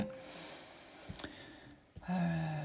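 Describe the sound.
Computer clicks while typing: a few faint, short, sharp clicks bunched close together, then one more click a moment later, with no talk.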